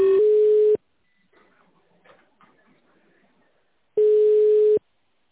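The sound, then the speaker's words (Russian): Ringback tones of a telephone call connecting: two long, steady-pitched electronic rings, one at the start and one near the end, separated by a few seconds of faint, crackly line noise. “Пожалуйста, оставайтесь на линии. Происходит соединение.”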